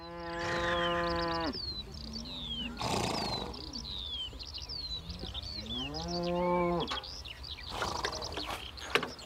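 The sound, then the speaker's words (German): Cattle lowing on a pasture shared with thoroughbred horses at an organic stud farm: two drawn-out, deep, resonant moos separated by several seconds, with bright birdsong chirping steadily throughout. “Seine edlen Vollblüter stehen zusammen mit Rindern auf der Weide und nicht in einzelnen Boxen in einem Stall”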